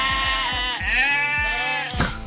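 A Cameroon sheep gives a long, wavering, nasal bleat that holds for about a second, with shorter bleating sounds around it. No one speaks.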